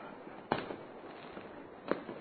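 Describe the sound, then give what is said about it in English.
Professional grade fireworks explode in two sharp, fairly faint bangs spaced more than a second apart over a steady background hiss. “These are professional grade fireworks.”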